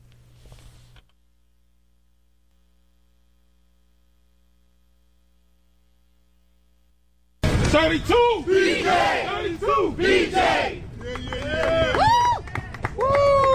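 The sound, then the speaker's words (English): Crowd chanting at a New York City labor rally of fast food chain workers, union members and city council members. After a long near-silent stretch, many loud voices burst in together and keep up rhythmic, overlapping shouted calls to the end. “That's the sound of a rally this past August, attended by New York City Council members, Chipotle employees, and 32BJ, the local branch of the Service Employees International Union.”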